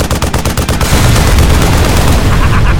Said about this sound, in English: Hey! Try a real machine gun!